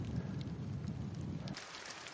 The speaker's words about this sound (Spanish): Llueve con intensidad en las montañas.